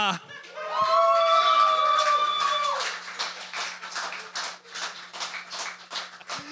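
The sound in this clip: Audience applause, with many dense, rapid claps building into a loud, steady wash that flickers in level, preceded by a brief sustained tonal sound near the start.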